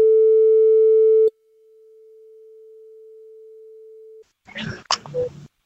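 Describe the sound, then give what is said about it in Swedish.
A long-distance phone call from Sweden to Thailand: a loud, steady line tone cuts to a fainter continuous tone that holds for a few seconds, followed by brief crackling noises on the line. “Nu ska vi ringa till våran kompis Kicken Lundqvist, killen som alla gillar. Han är tydligen i Thailand.”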